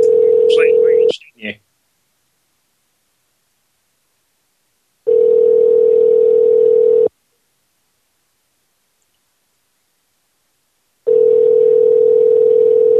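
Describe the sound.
A telephone line tone while a call is being placed: three long, steady, mid-pitched tones separated by several seconds of silence, with brief squeaky sounds over the first one.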